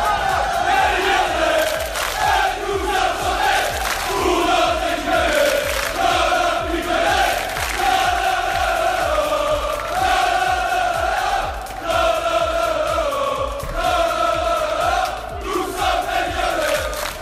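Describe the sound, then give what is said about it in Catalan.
Football supporters of a French team chant together in Plaça Artós, a loud, sustained, melodic chant from many voices that carries on without a break for the whole stretch. “Els Mossos d'Esquadra els han enviat després a la plaça Artós, on s'han reunit i on hem pogut sentir els primers càntics.”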